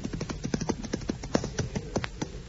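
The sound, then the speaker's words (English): Horse hooves clip-clop as a rider arrives at a tavern, with many quick, irregular hoof taps at a moderate level and no clear voices. “Then one day, he rode up to Uncle Billy Rubottom's tavern near his house.”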